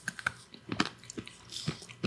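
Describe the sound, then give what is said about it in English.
Crunching and chewing of hard candy eyes from a Halloween mummy treat stuck on with mustard: many quiet, irregular crisp bites and grinding crunches, faint and close, with no talk. “What are the eyes? Are those edible? Candy. So I can eat those? Yeah, but you might break your teeth. Should I try? Those are hard.”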